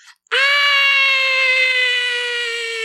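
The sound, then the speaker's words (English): A voice imitates a woman screaming: after a short faint sound, one loud, sustained, high scream holds a steady pitch to the end. “a woman screaming, but I'm going to assume, one, it was louder than that. I'm trying to save your eardrums.”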